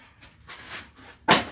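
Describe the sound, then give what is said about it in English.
A chair slams down and breaks with a single sharp, loud bang near the end, preceded by faint rustling and scraping. “It just fucking slams down, breaks. Fuck this chair.”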